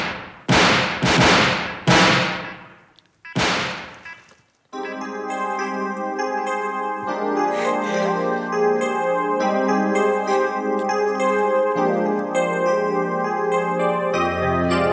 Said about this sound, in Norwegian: Hvem skjøt? Hvem ble skutt?